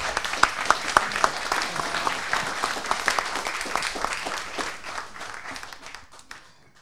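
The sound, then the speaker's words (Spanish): An audience at a lecture breaks into applause, a dense spread of many hands clapping with a few sharper claps standing out early on. The clapping gradually thins and fades away. “Un aplauso, por favor.”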